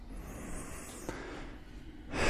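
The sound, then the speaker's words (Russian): Ujjayi breathing during a yoga class: a steady, soft hissing breath through a constricted throat that swells louder near the end, with no talk over it. “Дышим, дышим, уджая.”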